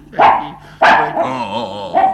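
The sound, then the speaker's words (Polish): A dog growls and barks: three sharp, loud barks with a rough, wavering growl running between the second and third. “Warczy, Marylko. Murzynek, no uspokój się, kochany pieseczku.”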